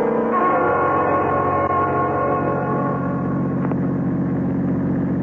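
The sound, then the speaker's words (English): A car's engine drones steadily as it drives at night and pulls off the road: a loud, continuous low rumble with a constant hum, and no voices. “Well, Self, this is about as far as we should drive. We'll just pull off the road here.”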